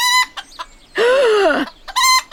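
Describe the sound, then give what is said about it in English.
A noisy chicken gives a few short, sharp clucks, then one longer, wavering squawk, and then more quick clucks. The calls are loud and clear, with no voices. “Look, it's a chicken.”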